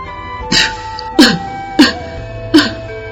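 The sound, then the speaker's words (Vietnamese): Dry coughing from a group of bandits, four sharp, separate coughs in a fairly even rhythm with quiet gaps between them. “Chính lúc này, đám sơn tặc ăn bán thức ăn mà Công Tôn và Tiểu Nhị mang qua, đột nhiên ho khan.”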